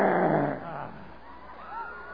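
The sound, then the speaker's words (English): A person imitates a lion's roar with a loud, rough, growling voice at the start that fades into a quieter, rumbling tail. “But you gotta roar. And while I'm reaching for the grapes, and the lion roars against me.”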